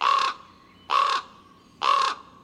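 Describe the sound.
Ravens calling: three harsh, hoarse caws, evenly spaced about a second apart, each loud and clear, with near quiet between them.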